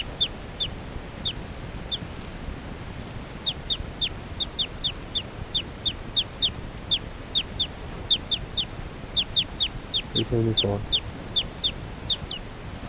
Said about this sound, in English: Occasional chirps by 378 there.